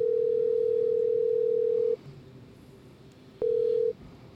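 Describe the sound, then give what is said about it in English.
A telephone ringback tone sounds on an outgoing call: a steady, even tone holds for about two seconds, then pauses before a second, shorter burst of the same tone begins. “Leave him a voicemail. I'll leave him a voicemail. Come on, Jeff. Come through.”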